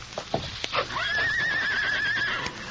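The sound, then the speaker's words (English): A horse named Silver, the Lone Ranger's horse, gives a loud, wavering whinny that holds for over a second. A few soft knocks come just before it. “Look at Silver watching the Lone Ranger. Silver! Here, boy! Come on, big fellow! He's running the other way. Look! Now he's galloping straight at the fence.”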